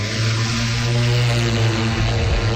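Steady droning of an aircraft engine at takeoff, carrying magnetic survey equipment, with a strong low harmonic hum and buzzing overtones held at an even, loud level throughout, no voices.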